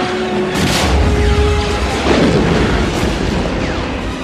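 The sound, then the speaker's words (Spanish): Gunfire sound effect from a space-adventure audio drama, with soldiers and a pistol firing in a hangar: a loud, dense, continuous barrage of bursts and booms without clearly separate shots. “Han desenfunda su pistola. ¡Alto ahí! ¡Disparad!”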